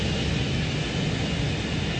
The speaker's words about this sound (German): Innerhalb weniger Sekunden erreicht es über 250 Stundenkilometer und hebt ab. Nach einem steilen Aufstieg fliegt der Kapitän eine Kurve und bringt so das Flugzeug auf den richtigen Kurs.